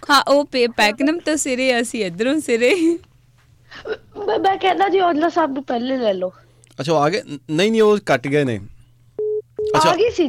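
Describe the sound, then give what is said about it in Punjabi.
A telephone call coming in on a radio show, heard as a short steady electronic tone near the end, after long stretches of people talking. “ਦੁਬਾਰਾ ਉਹਨਾਂ ਦੀ ਕਾਲ ਆ ਗਈ।”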